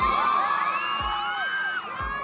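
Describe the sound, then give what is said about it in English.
Fans cheer and whoop for actor Johnny Depp outside a courthouse, a continuous crowd roar with high, excited shrieks that swoop up and down, punctuated by a few dull low thumps. “he's greeted like a rock star, with fans cheering like it was a movie premiere.”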